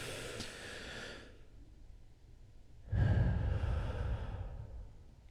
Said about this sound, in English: Just one big deep breath in.